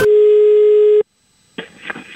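A telephone ringing tone: a single steady, mid-pitched tone lasts about one second, then cuts to silence before a burst of rough noise.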